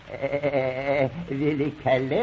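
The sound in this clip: A voice imitates the bleating of an old goat, a wavering, quavering bleat that pulses in a few drawn-out bursts at a steady moderate loudness, ending in a rising, nasal cry.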